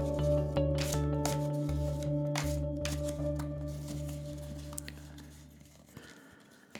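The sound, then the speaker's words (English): A deck of cards is handled and shuffled before one is drawn for a card reading, giving soft, quick riffling and rubbing sounds over a steady low hum, with no speech. “Okay. Now selecting a card.”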